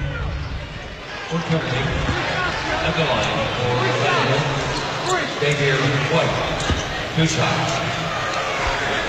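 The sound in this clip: A basketball is dribbled before a free throw, and its few thudding bounces sound under a commentator's voice and the steady murmur of an arena crowd.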